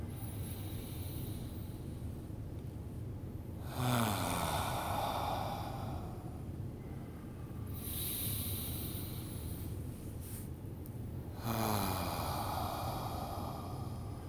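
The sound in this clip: Slow, deep breaths during a guided breathing exercise: a couple of long, airy, hissing breaths that swell and fade, faint over a steady background hiss.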